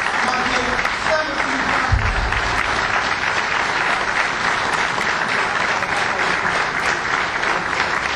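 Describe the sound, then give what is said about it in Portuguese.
A round of applause from the audience at a local parish gathering in Vila Nova do Campo. Dense, even clapping fills the whole stretch without a break. “E, portanto, pedi uma salva de palmas para aquele que é o caro”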